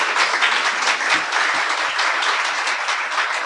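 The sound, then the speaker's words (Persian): Audience applause for zurkhaneh athletes: dense, steady clapping from many hands, loud and even throughout. “خب به شما دست بزنید.”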